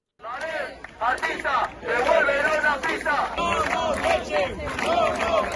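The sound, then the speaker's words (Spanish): Crowd of about 150 athletes and athletics club members protesting at the entrance to a stadium's running tracks, with loud, continuous chanting and shouting from many overlapping voices. “Este es el sonido de la protesta ayer en la entrada de las pistas de Balaídos”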